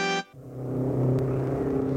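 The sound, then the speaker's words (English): Cars whizzing past on a busy state highway make a steady, low engine rumble and road roar that holds evenly throughout, with no voices over it. “A heavily traveled state highway runs past their houses, and we find them sitting on Bob's front steps playing one of their favorite games, seeing who can spot the most out-of-state license plates on the cars that go whizzing past.”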